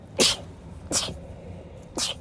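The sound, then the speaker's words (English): A person sneezing. Three short, sharp, hissing bursts are evenly spaced over quiet background hiss, and each one ends quickly. “Had a sneeze.”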